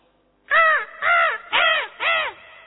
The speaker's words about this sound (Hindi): पक्षी जग गए, चिड़िया चहक रही है, कौवा बोल रहा है,